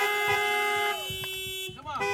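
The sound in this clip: Car horns honking during a church service, several sustained overlapping blasts that are strongest in the first second and then thin to a single lingering tone, with voices alongside.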